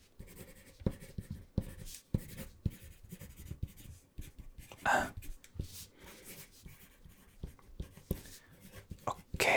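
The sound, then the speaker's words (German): Pen scratching across paper as notes are taken, with many short, uneven strokes and taps that vary in loudness throughout. “Erzählen Sie bitte, ich schreibe nur mit, okay?”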